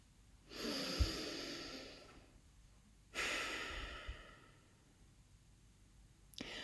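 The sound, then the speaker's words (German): A deep breath in and out during a guided relaxation exercise: two long, soft, airy swells of breath, each rising and then fading slowly, quiet and without talk. “Und dann atme hier mal tief ein und tief aus.”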